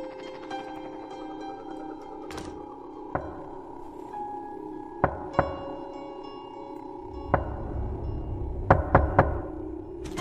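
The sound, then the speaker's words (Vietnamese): Someone knocks on a door outside: scattered single knocks, then a quick run of three close together near the end, all over a low, steady droning background. “Có tiếng người gõ cửa vang lên ở bên ngoài.”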